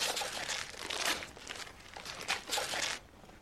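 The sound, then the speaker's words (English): Wrapping paper tears and crinkles as a gift holding a CD is ripped open: several loud, papery ripping bursts over about three seconds, then a sudden drop to near quiet, with no voices. “Let's just cut into it. Rip it.”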